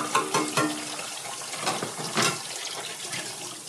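Tap water runs in an intermittent stream while dishes are rinsed. It makes a continuous hissing splash with a few brief louder surges.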